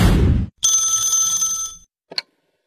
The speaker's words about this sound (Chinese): 又一个陌生来电